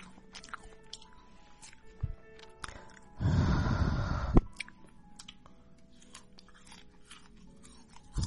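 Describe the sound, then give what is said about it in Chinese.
Crunchy chewing of winter jujubes: a loud, dense burst of crunching lasting about a second, surrounded by fainter intermittent clicks and moist smacks, with no talk. “我才没有偷吃呢，我在吃冬枣啊”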